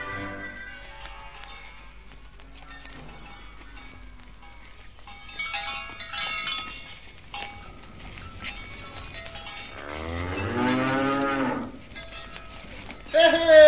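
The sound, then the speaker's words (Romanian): Cattle lowing as a village herd returns from pasture, with scattered moos, mostly faint, and one louder, drawn-out moo near the end. “așteptând pe Joiana care se întoarce cu cireada satului de la pășune”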